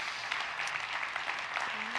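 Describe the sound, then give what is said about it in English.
A church audience claps and cheers during a service, a steady, dense burst of applause that stays even in level throughout. “Love you so much. Yeah, let's give it up for Hokesson.”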